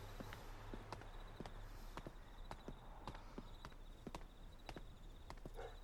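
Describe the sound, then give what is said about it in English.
Footsteps walking down a sidewalk, many crisp heel taps in a steady, even rhythm over a faint constant hum. “You're walking down the sidewalk.”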